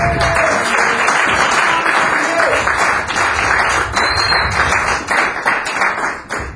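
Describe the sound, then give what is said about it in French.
A church audience claps and acclaims Jesus during worship, with voices mixed into the applause. The sound is loud and sustained, thinning briefly toward the end. “Il est bon, Jésus de Nazareth. Acclamons peut-être fort pour nous.”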